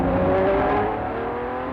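A big-displacement motorbike engine revs with a loud, steady drone that eases slightly toward the end.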